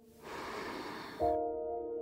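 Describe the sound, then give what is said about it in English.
Deep breath drawn in and then let out, a soft, airy inhale followed by a slightly stronger exhale, quiet and without speech. “In with your breath, filling yourself up, and then letting it go.”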